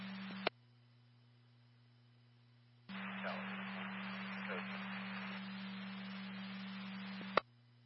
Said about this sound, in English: Tower is copying the static.